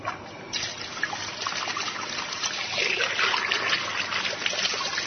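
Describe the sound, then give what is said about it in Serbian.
Water pours into a small coffee pot while tea is being made, a steady trickling stream that starts after a brief quiet moment and runs continuously, growing slightly fuller toward the end. “Za početak sipat ćemo vodu u džezvu.”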